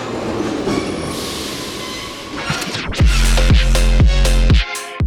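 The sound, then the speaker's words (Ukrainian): A Kharkiv metro train at Derzhprom station starts with a low rumble. It then breaks into loud, rhythmic clacking of wheels over rail joints, with metallic squeals over a heavy low drone. “Станція Держпром. Це станція Держпром. Щотижня ми вирушаємо у подорож. Інколи це кілька станцій під земкою по Харкову.”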